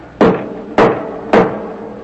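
Three loud, evenly spaced knocks on a church door during a Sunday Mass, each a heavy, booming thud with a short decay and no voices.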